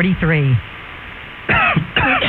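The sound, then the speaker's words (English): A few loud, harsh, voiced coughs in a radio health segment about chronic cough, separated by a short pause. “We cough for lots of reasons.”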